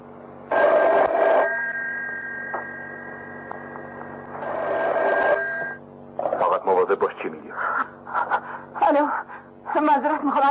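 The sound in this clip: Telephone ringing with no answer: two electronic ring bursts separated by a steady tone, then a person talking over the line in the second half.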